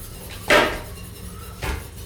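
Two sharp knocks of a knife chopping an onion, about a second apart, crisp and fairly loud over a quiet background.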